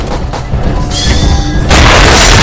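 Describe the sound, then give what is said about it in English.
Loud booming gunfire from a gun in a video game, a dense, continuous barrage that grows stronger in the final second. “I just want to see how this gun works out.”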